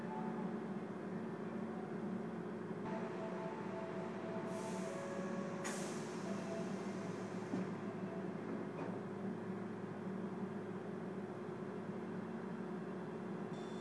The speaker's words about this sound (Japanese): The doors on the left side will open. Please be careful of the train doors.